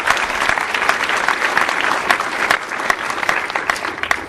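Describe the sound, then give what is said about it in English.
Applause from a crowd greets a speaker at a public meeting. Dense clapping holds at an even level throughout, with no voices over it. “Let's give Molly a hand.”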